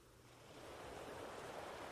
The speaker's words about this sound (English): And as you sit there, listening to the sounds of the water, the waves washing gently onto the shore,